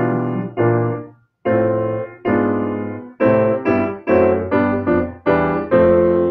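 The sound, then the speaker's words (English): A descending fifth sequence is played as a harmony exercise: a chain of struck chords that each ring and fade. After the first two there is a short gap, then the chords return, evenly spaced at first and then coming quicker. “there's a really difficult exercise in theory of doing a descending fifth sequence. It sounds like this.”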